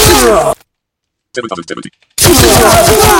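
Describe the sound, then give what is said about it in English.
A short message notification tone, a brief cluster of bright tonal notes sounding in a gap between stretches of talk. “Sorry for that, that was a message.”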